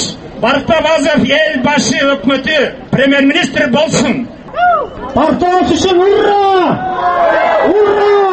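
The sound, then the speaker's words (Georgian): Protesters chanting at a Friday demonstration in Bishkek backing a politician's bid to lead the government: a loud, rhythmic group chant in repeated bursts separated by short pauses. “ეს შეძახილები ბიშკეკში პარასკევს გამართულ დემონსტრაციაზე ისმოდა.”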